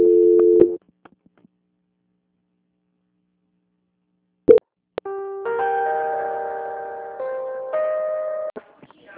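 A telephone line tone after a call drops during a power outage: a short steady electronic beep, a silent gap with faint clicks, then a long sustained tone that steps slightly in pitch toward the end.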